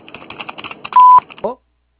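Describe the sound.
A single short, steady electronic beep, the voicemail tone that signals the start of recording, sounds after a run of clicky, chatter-like noises and is followed by a brief vocal burst.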